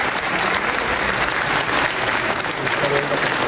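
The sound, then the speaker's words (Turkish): Applause in a parliament chamber, a dense, steady roar of many hands clapping that stays loud and even throughout, with no single claps standing out. “alkışlarla karşılandı”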